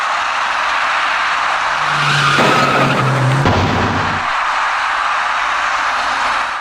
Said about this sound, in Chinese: 那辆白色小客向左转弯进入了路口，与此同时，一位电动自行车的骑车人直行而来。由于采取措施不及，白色小客把那位骑车人连人带车一起撞翻在路口里面。